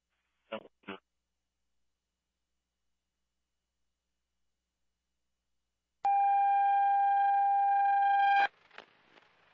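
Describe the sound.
Emergency dispatch radio alert tone paging fire and EMS first responders: a steady, buzzy tone held for about two and a half seconds, preceded by two short bursts of radio noise and followed by faint broken crackle.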